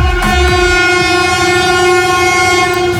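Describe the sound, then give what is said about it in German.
A German ICE train crossing a newly opened bridge in the early morning sounds a long, loud, steady horn blast that holds without a break over the rumble of rail noise. “Das war ein Regionalexpress, der ICE, der direkt danach kam als zweiter. Der hat sogar ein bisschen ein kleines Hubkonzert gegeben.”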